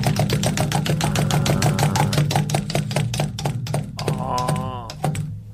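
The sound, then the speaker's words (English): Rapid clicking of a prize wheel spinning, many sharp ticks in a steady, even rhythm over a low sustained tone, with a short voice-like sound near the end. “So we spin the wheel. One caller. Let's spin”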